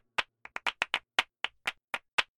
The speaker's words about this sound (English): What you're hearing now is the claps. I picked up clapping after cello, you know. I phased it so that it's actually kind of moving around your ears.